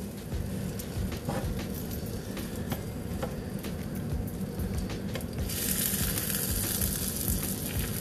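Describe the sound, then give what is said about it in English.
Omelet egg cooking in a pan gives a steady, even sizzle that holds without a break, with a few faint ticks and pops scattered through it. No one speaks. “So pick up the pan, tilt it over with the spatula, and let the egg run to the bottom.”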